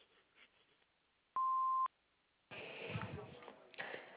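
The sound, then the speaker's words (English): An answering machine beep: a single steady, pure electronic tone lasting about half a second after faint background hiss, followed by a caller starting to speak. “Please leave your message after the beep.”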